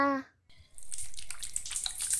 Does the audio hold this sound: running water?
yes

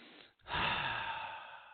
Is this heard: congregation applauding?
no

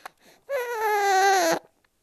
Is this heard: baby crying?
yes

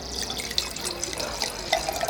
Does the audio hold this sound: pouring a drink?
yes

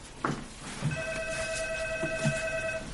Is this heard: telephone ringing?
yes

